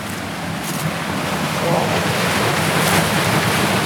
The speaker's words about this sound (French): C'est la chute d'eau qui, après la résurgence